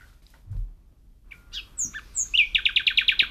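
Nightingale song: after a quiet start, a few high whistled notes ring out, then a rapid, evenly spaced run of bright repeated chirps.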